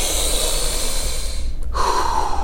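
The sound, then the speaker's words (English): A huge, deep breath drawn in and let out, a loud, airy rush of breathing with a short break partway through, with no talking. “Take a huge deep breath with me. Ready? On three. One, two, three.”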